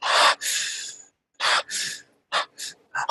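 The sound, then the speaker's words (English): Quick, gasping breaths from a person deliberately cutting each exhale short and rushing into the next inhale. Loud, breathy bursts come in a hurried, uneven series and grow shorter toward the end, with no talk. “So I'm cutting my exhale short and rushing into the next inhale.”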